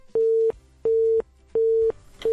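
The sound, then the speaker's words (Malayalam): A phone busy tone sounds after a caller's line drops during a phone-in. It is a steady, mid-pitched beep repeating at an even pace, with three full beeps and the start of a fourth heard alone. “പോയി പോയി. Yes, അന്ത ആളും കട്ടായച്ച്.”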